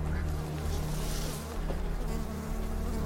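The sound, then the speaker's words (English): Flies buzzing just above the ground by a cove's water, a continuous droning hum that swells and dips slightly in loudness over a low steady background. “Flies flutter above the ground.”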